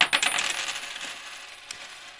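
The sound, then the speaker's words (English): I Ching coins are tossed and land in a quick cluster of bright metallic clinks and clatters. The ringing fades quickly, and one more faint small click comes near the end. “Okay, the I Ching landed.”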